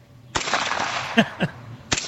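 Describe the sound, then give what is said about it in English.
Suppressed gunshots fire in a short series of sharp, muffled cracks over a steady noisy background. “Okay here we go. 5 rounds suppressed.”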